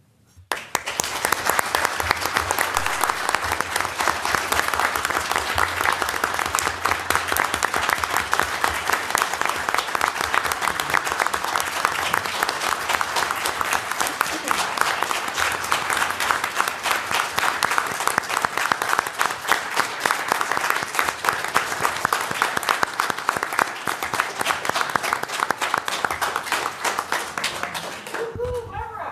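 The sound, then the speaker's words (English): Audience applause at a city council meeting, loud and steady clapping that holds for nearly half a minute before tapering off at the end. “And I'd like us to make some noise for Barbara so she can hear us from afar.”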